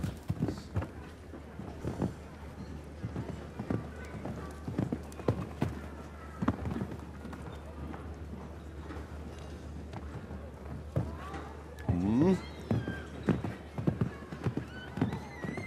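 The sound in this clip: Hooves of a galloping horse at a show-jumping competition, ridden by the rider on a grey horse, beat out a steady run of rhythmic thuds over a continuous low background for the whole stretch.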